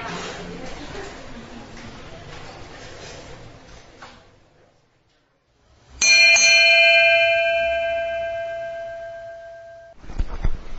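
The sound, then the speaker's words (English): A bell strikes once and rings on with bright, sustained tones that slowly fade over several seconds. A stretch of voices and a brief lull come before it, and another sound cuts in at the very end. “That bell may not seem like it takes a while to bell, but brings you forward in time.”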